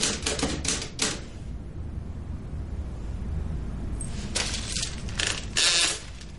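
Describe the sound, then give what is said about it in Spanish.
Typewriter keys clatter late at night in a dimly lamp-lit study, a quick run of keystrokes, a brief pause, then another burst of fast mechanical taps, crisp and fairly quiet. “escribe a máquina bajo la tenue luz de las dos lámparas de su despacho.”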